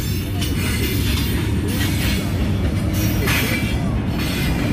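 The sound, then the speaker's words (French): A long freight train rolls past, hauling water tank wagons on a line that supplies an arid town. The rumble is loud and steady throughout, with a broad hiss that swells and fades several times. “Donc, c'est un petit train. Là, tu as normalement 110 wagons. Si on compte bien, 110, 115 wagons. Et des citernes, ouais. Citernes d'eau.”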